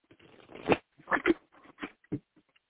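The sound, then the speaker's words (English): A deck of cards is shuffled before cards are pulled for the week ahead. A few irregular, soft papery riffling bursts play on their own, with no talk. “I'm going to go ahead and pull cards for the week ahead.”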